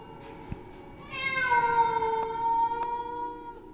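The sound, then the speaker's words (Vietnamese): Wild forest cats yowling eerily across a stream, a single long, drawn-out, wavering cat cry rising from low background noise and holding at moderate loudness. “Sau đó họ nghe rõ là tiếng mèo. Kỳ lạ là không phải loài mèo nhà, mà là tiếng mèo hoang, những con mèo rừng đang kêu lên ghê rợn ở bên kia dòng suối.”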